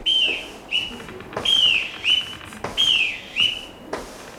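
A boatswain's pipe on a ship sounds many short, shrill whistle calls in a rhythmic pattern. Each call bends and glides in pitch and stands out loud over a low background.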